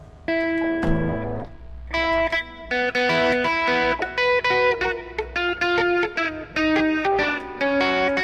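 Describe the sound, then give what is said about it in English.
Heavily distorted instrument notes pass through an effects unit. They play in a loud, buzzing series of short rhythmic phrases with gaps between them, and there is no talk. “Yes, but it's really too distorted.”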